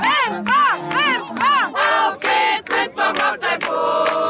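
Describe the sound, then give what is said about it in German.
Loud crowd shouting and cheering at the games of a Franconian village church fair on the fairground square, with voices raised together in a rhythmic, chant-like pattern of repeated swelling cries, then a denser, more ragged burst of shouts. “So klang's am Nachmittag auf der Winsbacher Kerwa auf dem Kirchweihplatz. Es war der Wahnsinn, wie viele Leute gekommen sind, um bei den 5 Kirchweihspielen selbst mitzumachen oder um ihren Ort anzufeuern”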